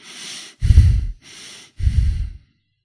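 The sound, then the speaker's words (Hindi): Long, deep breathing during a guided meditation: two full breath cycles, each a soft, airy intake followed by a heavier, louder exhale, heard alone with brief pauses between. “वापस शरीर में लंबी लंबी सांस लेंगे,”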